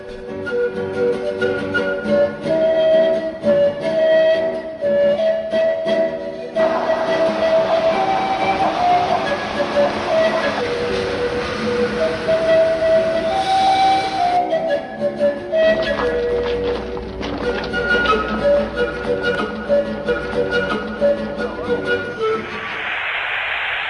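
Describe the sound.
A Montreal metro subway train runs throughout, a steady, loud rumble carrying sustained tonal whines whose notes shift in pitch.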